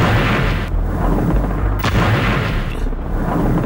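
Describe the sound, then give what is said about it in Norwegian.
Archival recording of the 1982 bombing of Beirut: a continuous heavy roar with deep rumbling and a few sharp booms breaking through, loud and dense from start to finish. “Dette er lyden av Israel som bomber Beirut i 1982.”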